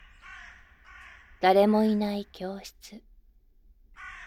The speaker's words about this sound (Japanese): カーカーと鳴くカラスの声に